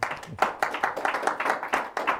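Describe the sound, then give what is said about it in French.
An audience claps in brisk, fairly regular beats, a quick series of sharp hand claps that keeps a steady pace at moderate loudness. “Mais c'est grâce à eux. On les applaudit. Allez,”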